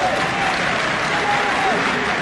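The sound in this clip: An audience applauds at a comedic stage performance, with dense, even clapping that continues throughout.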